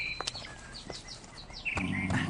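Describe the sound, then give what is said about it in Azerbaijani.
Birds singing: a handful of short, high chirps and twittering calls, faint and scattered across the moment with soft background noise. “Quşlarınız çox gözəl oxuyurlar.”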